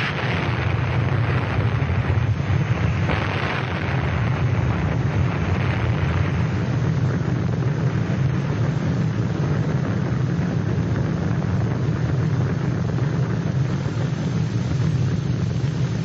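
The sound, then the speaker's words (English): An atomic bomb explosion heard from the bomber as it flies away at over 30,000 feet: a steady, unbroken low roar that fills the whole stretch without clear peaks or breaks. “Here's the actual sound after they dropped the bomb and it exploded as they were flying away at 30-some thousand feet.”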